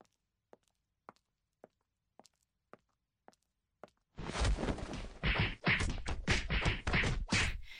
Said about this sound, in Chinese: 你不要开枪，我现在手里没有武器，我慢慢走过来。